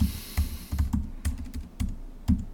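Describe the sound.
Typing on a computer keyboard: many quick, uneven key clicks with a few heavier strikes, alone with no talk.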